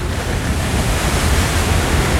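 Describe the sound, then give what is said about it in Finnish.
Waves breaking in high spray on a sharp rocky shore, a loud, continuous rushing roar of surf without distinct separate crashes. “Aallot murtuvat korkeina pärskeinä rannan terävään kivikkoon.”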